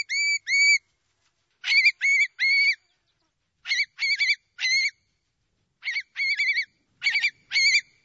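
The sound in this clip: A male shorebird calls during its breeding display flight, rising high and then gliding down. Short, bright, nasal whistled notes come in groups of two and three, separated by silent gaps.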